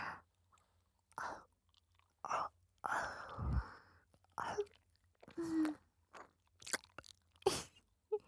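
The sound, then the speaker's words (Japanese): Gentle nibbling on an ear, with soft, wet mouth sounds and light smacks in many short, separate bursts, faint and close, with breathy exhalations between them. “大丈夫。本当に食べたりしないよ。甘噛みしてるだけで楽しい。”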